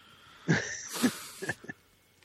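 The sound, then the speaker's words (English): Wheezy, raspy breathing from a 12-year-old dog with breathing problems: a few harsh, noisy breaths with a hissing edge, fairly faint and heard on their own. “This is Tinker Monster, my dog, who's 12 years old and is having problems breathing.”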